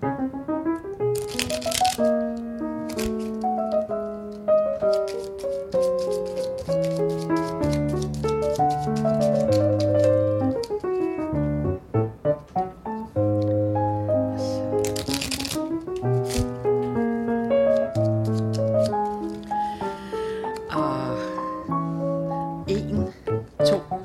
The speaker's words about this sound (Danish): Jeg blander kort.